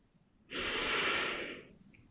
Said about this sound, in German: Atme tief ein